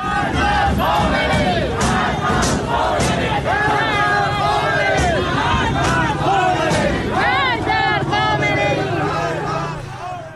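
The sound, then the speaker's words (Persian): A protest crowd gathering in Tehranpars, Tehran, shouts and chants continuously, many voices overlapping in a loud, unbroken roar of cries and calls. “ویدیوهای مختلفی منتشر شد که معترضان تونستند به همدیگه بپیوندن و تجمعات اعتراضی رو شکل بدن در حضور گسترده ماموران امنیتی. صدای یک ویدیو رو از تهران پارس میتونیم الان بشنویم.”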